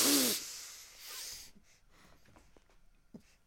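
Deep inhaling breaths repeated during a breathing exercise: two strong, airy rushes at the start, followed by softer, fainter breath noises with small snorting puffs.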